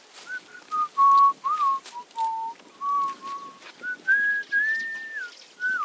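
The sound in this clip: A man whistles a wandering tune while working as caretaker of a small earthen dam in rural Kenya. He produces many short, clear notes that rise and fall, with brief gaps between phrases.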